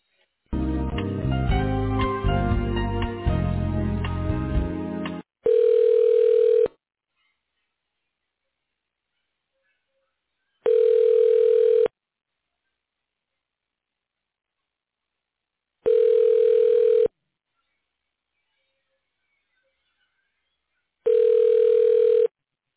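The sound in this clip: Telephone line tones play during a call transfer: after a brief dense opening sound, four identical steady mid-pitched beeps sound alone, each about a second and a half long and separated by long silent gaps.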